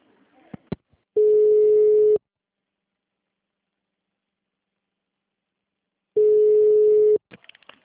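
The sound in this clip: Telephone tone after a dropped call: two long, steady mid-pitched beeps, each about a second, separated by a long silence. Brief clicks and handling noises come before and after.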